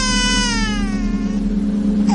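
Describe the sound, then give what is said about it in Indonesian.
A baby's drawn-out cry, used as an eerie horror-story effect, holds steady in loudness as its pitch slowly falls, over a constant low hum. “tiba-tiba terdengar suara bayi lagi.”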